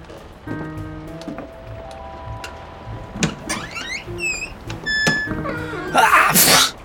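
An old wardrobe door is opened, with a series of squeaky, wavering creak tones and short chirping sweeps, ending in a loud rushing burst.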